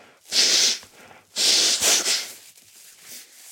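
Wet, forceful sniffing as mucus is drawn up into the sinuses: two long, loud snorting inhales, followed by a fainter, shorter sniff at the end.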